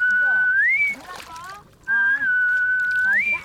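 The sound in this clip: High, pure whistles from marine animals as they resurface from the ocean floor. Two sustained tones, each rising sharply in pitch near its end, separated by a brief lull.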